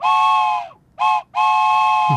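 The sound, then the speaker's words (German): A toy steam-locomotive whistle from a small bag gives three bright, piping toots in a long, short, long pattern. The tone is steady and fairly loud, with no voices. “Im Täschchen mit der Gouverne hat es übrigens auch noch eine Pfeife drin, zum Dampflocke spielen, wo Doro damit reist. Die tönt echt.”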